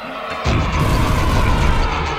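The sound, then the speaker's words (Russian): A cannon-shot sound effect firing a projectile: a sudden, loud, deep blast that swells into a sustained, noisy roar and continues to the end. “Какой вместе с выстрелом вырвался сноп пламени! Так светло стало! Ночь превратилась в день!”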